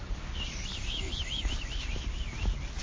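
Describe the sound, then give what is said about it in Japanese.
Cicadas chirp in a steady, wavering high-pitched buzz that runs unbroken through the whole clip, with no voices over it. “セミが鳴いてます”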